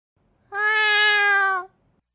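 A single drawn-out cat meow, steady in pitch and bright with overtones, lasting about a second on its own with silence before and after.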